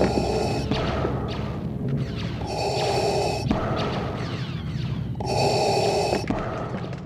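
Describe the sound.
Deep, slow breathing through a scuba tank regulator, pitched down. Three hissing inhales alternate with low, rumbling exhales in a steady mechanical loop.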